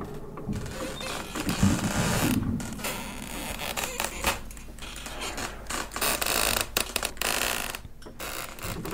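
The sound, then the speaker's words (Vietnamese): Wooden doors shaken by the wind creak and rattle, with many grinding, irregular creaks that carry on throughout, loud and without any voices. “Hai cái cánh cửa gỗ lúc nãy được lão Tính đóng chặt cẩn thận, bây giờ lại rung lên, phát ra những tiếng lẹt cả lẹt kẹt, đến lạnh cả người.”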